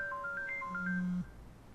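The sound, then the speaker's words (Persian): A mobile phone ringtone signals an incoming call: a quick melody of short, high electronic beeps at shifting pitches, followed by a longer, steady lower tone that stops abruptly. “چرا الان داره بهم زنگ میزنه؟”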